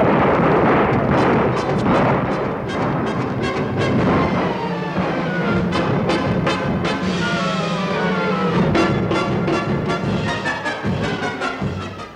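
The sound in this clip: Heavy gunfire as Spanish colonial troops approaching Enriquillo's lands are fired upon by the guarding Indigenous fighters: a dense, loud barrage of many overlapping sharp cracks and booms over a continuous roar that lasts throughout.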